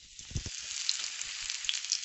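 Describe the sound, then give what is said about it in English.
Spiced lamb kofta, dusted with a little flour, sizzling as it fries in hot oil. A constant, bright crackling hiss runs throughout, with a few soft low bumps near the start. “I've made the lamb mixture for the kofta. Put all the spices in it, dusted them with a little bit of flour, and now I'm going to fry them in some hot oil.”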